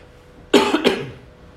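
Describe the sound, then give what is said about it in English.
Two sharp coughs from a preacher at the start of a sermon, the second following closely after the first, loud and then trailing off into quiet. “Excuse me, I haven't even started yet, I'm already coughing.”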